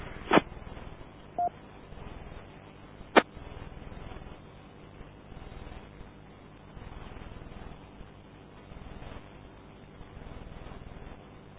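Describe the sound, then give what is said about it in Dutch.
Brief telephone dialing tones sound as someone calls a colleague while a network access point is down. Short tones and a couple of sharp clicks stand out over steady, narrow-band line hiss. “Ik zal Dennis even bellen.”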